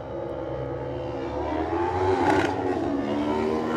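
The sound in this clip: A Kawasaki road-racing motorcycle pulls away from the start, its engine note climbing in pitch and growing louder as it accelerates, with a brief crackling burst midway through.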